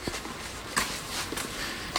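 Footsteps walking between terraced houses on a drizzly afternoon, a few soft, irregular steps heard faintly over a steady background wash.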